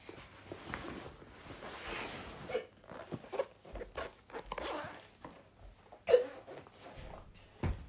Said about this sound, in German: Nicht wundern, ich habe Schluck auf.